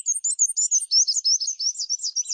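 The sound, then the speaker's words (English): A black-and-white warbler sings alone: a thin, very high-pitched, squeaky series of many rapid repeated two-part notes at a steady, seesawing rhythm. “Sometimes birds have common names that aren't very descriptive. Not so for the black and white warbler.”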